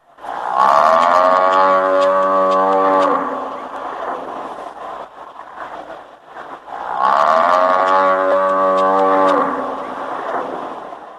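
A cow sick with lumpy skin disease, feverish and covered in nodules, on a farm in Hassan moos twice. Each moo is loud, drawn-out and strongly harmonic, with a quieter stretch of low sound between them.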